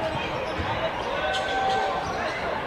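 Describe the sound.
Basketball dribbled on a court during a game, quick bounces under a steady crowd murmur.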